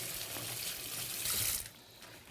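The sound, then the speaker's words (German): Hot tap water runs steadily while an untreated orange is rinsed under it: a soft, continuous hiss and splash that shifts in tone partway through, fairly quiet and without voices. “Sehr schön, dann nehme ich jetzt die Orange, das sind ja unbehandelte Orangen. Die tue ich mal einmal heiß abwaschen, das ist wichtig.”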